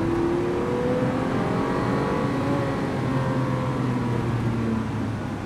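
A Ferrari car engine revving steadily and loudly, its whining tone drifting slightly up and down in pitch as it runs continuously without a break.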